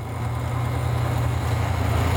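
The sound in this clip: A car engine, run after sitting unused for months and fitted with new batteries, gives a loud, steady low rumble that stays even throughout.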